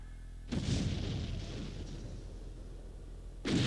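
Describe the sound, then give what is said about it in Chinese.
Heavy gunfire from a machine gun strafes prisoners in cells in a staged drama. A sudden loud burst roars on and slowly thins out, then a second burst starts at the end. “把所有人集中在2个牢房里，加上机枪，扫射。”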